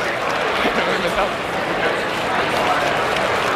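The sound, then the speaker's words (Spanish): Sustained ovation from the crowd at a grass-court tennis final: a dense, loud, unbroken wash of clapping and crowd noise that holds steady for the whole clip. “la verdad que la ovación que le están tributando a Roger Federer”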